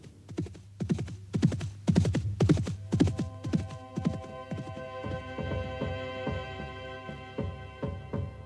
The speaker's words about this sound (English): Thomas was gone, galloping towards his destiny on the other side of the Channel.